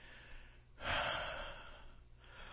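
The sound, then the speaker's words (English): Heavy breathing while catching breath: one long, faint, airy breath swells and slowly trails off, followed by a softer short breath near the end. “Catch my breath. My heart is pounding so hard.”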